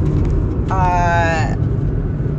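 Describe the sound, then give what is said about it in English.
Inside a car driving home, a steady low road and engine rumble runs unbroken from start to end. A brief higher tonal sound rises partway through. “I'm currently driving home.”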